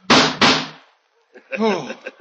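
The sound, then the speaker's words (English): Two loud, sharp pistol shots ring out in quick succession in a dramatized shooting scene, followed after a short silence by a voice speaking. “Oh, it can't be. I put 6 bullets into you. Why did you fall?”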